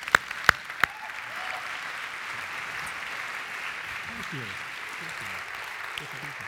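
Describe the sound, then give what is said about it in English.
Audience applause welcoming a guest speaker at Hope College: a steady, dense wash of clapping that holds at an even level throughout, opened by a few sharp, louder individual claps at the very start. “Would you please give a warm Hope College welcome to Earl James?”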